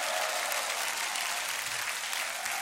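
A church audience applauding and making noise, a steady, dense patter of many hands. It stays fairly soft and even throughout, with no talk over it.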